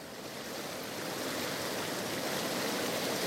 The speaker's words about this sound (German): Und hier ist die Donau.